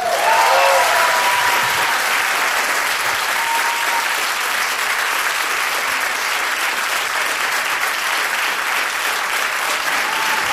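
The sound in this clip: Audience applause at a live public event in Poland, a dense, steady clapping that holds at an even loudness for the whole stretch with no voices over it.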